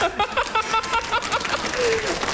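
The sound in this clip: Audience applause at a comic stage performance built around traditional opera, steady clapping that carries on under talking.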